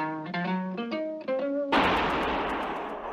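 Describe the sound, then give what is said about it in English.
A single gunshot rings out in a Harry Lime radio drama, set in a sewer beneath Vienna. A short run of tonal notes gives way to a sudden loud blast, followed by a sustained noisy tail. “That was the shot that killed Harry Lime. He died in a sewer beneath Vienna, as those of you know who saw the movie The Third Man.”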